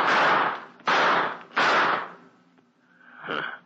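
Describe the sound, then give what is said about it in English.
Gunshots fired at someone in a dark place during a radio mystery drama: three loud, sharp blasts in quick succession, each with a long fading tail, then a softer, shorter burst. “Took a couple of shots at me and ran.”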